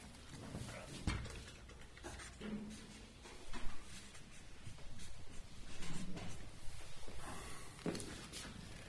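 Handwriting while a marker is added to a diagram: soft, scratchy pen strokes in short bursts, faint and mixed with light rustling, with no voices.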